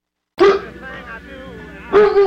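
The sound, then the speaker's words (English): A police-trained Doberman Pinscher gives two loud, sharp barks about one and a half seconds apart, with a quieter, lower-level sound between them. “There's a Doberman Pinscher who's trained by the police department.”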